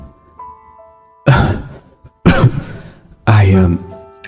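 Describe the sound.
A weak old woman coughs after taking her pills: three loud, rough bursts at about one-second intervals, each breaking sharply out of near silence while faint steady tones hum underneath.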